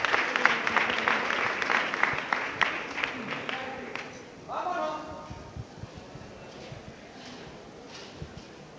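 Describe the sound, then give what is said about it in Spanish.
Applause fills a parish church as a Holy Week procession float is lifted, with dense clapping loudest at first and then thinning to scattered claps while a voice talks over it. “Pues se levanta el paso del mayor dolor y se levantan los aplausos en la parroquia de la Magdalena.”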